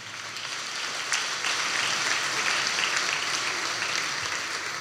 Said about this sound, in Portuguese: Uma salva de palmas para ela, faz favor.